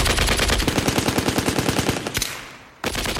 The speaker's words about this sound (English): Guns blazing, the soldiers shoot over 1,000 rounds of 15-pound bullets at the unknown craft.